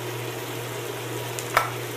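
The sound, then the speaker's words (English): A steak sizzles faintly and steadily in a lidded electric cooker over a low electrical hum, broken once by a single sharp clack as the lid is lifted. “So I will now lift the lid. Okay, I hope you wanted a well-done steak”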